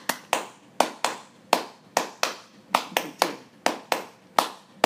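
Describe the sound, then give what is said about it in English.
Hands clap a short rhythm pattern over and over, giving many crisp, sharp claps in uneven repeating groups with brief gaps between them and no talking. “one person claps that over and over and over, same. The other person claps the same rhythm, but then shifts it by one eighth note each time.”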